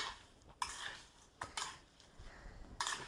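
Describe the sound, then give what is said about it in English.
A utensil stirring blueberries and cinnamon in a bowl for a rustic tart filling: quiet, soft scraping and shuffling, punctuated by a few sharp clinks against the bowl. “So we're stirring this up. Only takes a second.”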